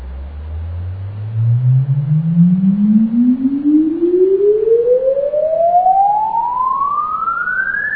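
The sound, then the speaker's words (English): An audio test sine sweep plays for a recording: a single pure tone glides smoothly and continuously upward from a low hum to a high pitch over about eight seconds, loud over faint background noise. “We insert here as the first track the sweep, and we record the second one.”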